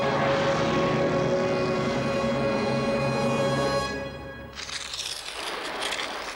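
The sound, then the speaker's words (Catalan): Engine drone of a small two-seat airplane, a loud, steady, harmonic hum for about four seconds that then gives way to a broader, rougher rushing noise. “És un avió de dues places.”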